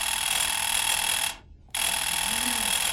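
An electric doorbell rings insistently with a loud, continuous metallic buzz. The ring breaks off briefly, then starts again just as hard.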